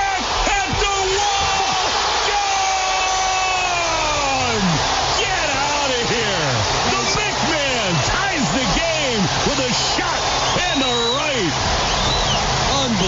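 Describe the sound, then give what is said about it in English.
Baseball crowd at Fenway Park roaring after a batter drives a ball high and deep down the right field side, a steady, loud wash of cheering under a commentator's voice. “Yeah, that pumped a little bit of adrenaline into that Fenway Park crowd.”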